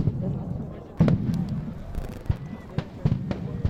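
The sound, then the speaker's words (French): Stun grenades exploding at a protest near a large agricultural water reservoir, heard as a few sharp, loud bangs spaced irregularly over steady background noise. “il y a des panaches de fumée, des grenades assourdissantes se remettent à exploser.”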